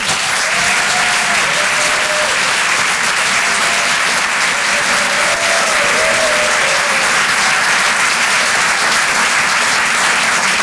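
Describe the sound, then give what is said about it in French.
Dense, steady applause from the audience at a French stand-up comedy show greeting a comedian onto the stage, loud and unbroken throughout, with a few faint cheers rising above the clapping. “Je vous demande de l'encourager. Faites un maximum de bruit, s'il vous plaît, pour Amy London.”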